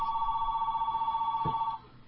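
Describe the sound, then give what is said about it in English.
A telephone rings in a single sustained, warbling electronic trill that cuts off abruptly near the end, leaving near silence. “Oh, phone, just a second.”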